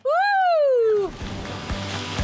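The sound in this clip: Someone jumps into cold 12-degree sea water at Akmelvik Bay to swim to the beach: a long shout that falls in pitch, then a splash and continuing sloshing and churning water.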